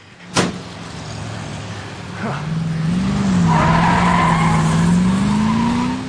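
A car speeds and skids at a red light: a sharp knock, then a rising engine roar and a sustained, loud tire squeal that wavers in pitch before fading slightly.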